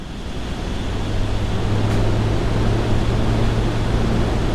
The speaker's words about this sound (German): Die Transportmaschinen der Bundeswehr starten mitten in der jordanischen Wüste auf einem Luftwaffenstützpunkt bei Amman. Insgesamt 7 graue Maschinen schrauben sich heute in die Luft.